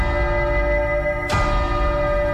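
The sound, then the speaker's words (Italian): A deep, resonant chime from a clock hidden inside the walls of a house: one heavy strike lands over an already humming tone, and its ringing sustains steadily to the end. “3 rintocchi, l'ultima volta erano 4.”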